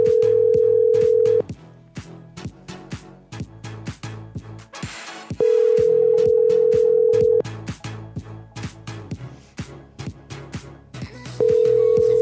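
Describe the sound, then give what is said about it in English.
Discord call ringing tone: a steady, mid-pitched electronic tone sounds in long bursts, two full rings and a third starting at the end, separated by gaps filled with sharp, irregular clicks. “It's just ringing forever.”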